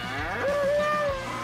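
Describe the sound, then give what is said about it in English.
A Mexican fighting bull lets out a single deep, loud bellow lasting just over a second, its tone swelling and holding steady before fading. “Watch nine of the country's best freestyle bullfighters take their minute in the ring with a Mexican fighting bull.”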